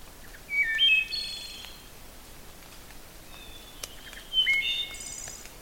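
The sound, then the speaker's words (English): Wood thrush song: two faint, flutelike phrases of quick high notes with a quiet pause between, each ending in a brief flourish, singing outdoors. “we heard the sound of a wood thrush singing outside of our window.”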